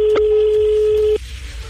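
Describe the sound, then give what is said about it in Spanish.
Telephone call tone, a single steady electronic beep held at one pitch for just over a second before cutting off, set against a music track with a low beat continuing underneath. “Vamos a llamar, estamos llamando.”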